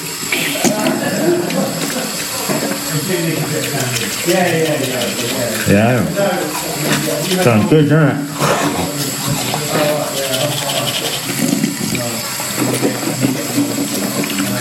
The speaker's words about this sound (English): so it's time to brush the old teeth. If you see my Day in the Life videos, you know I brush my teeth before a gig, so let's get this closer so you can really hear.